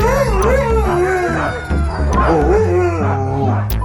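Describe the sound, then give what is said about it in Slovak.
Siberian huskies and Alaskan malamutes howling together in a pack: several long, wavering howls overlap, rising and falling in pitch, mixed with yips and whimpers, loud and continuous throughout. “Huňaté sibírske hásky a aliašské malamuty.”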